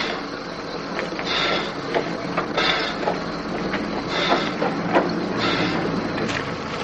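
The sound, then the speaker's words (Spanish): A railway carriage stands at a station platform during wartime as people climb aboard. A steady mechanical rumble carries many intermittent metallic clanks and ratcheting knocks, and no one speaks. “Roger y Max suben a un vagón. Eric hace lo mismo.”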